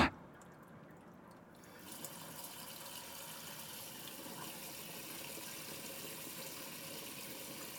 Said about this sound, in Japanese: 糸を外してお湯をかけて流しますから、じっとしていてくださいね。